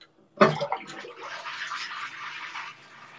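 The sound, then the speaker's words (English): Water drains down a plughole after the plug is pulled. A sharp splashy onset gives way to a steady gurgling rush for about two seconds before it fades out. “There we go. Drain, baby, drain.”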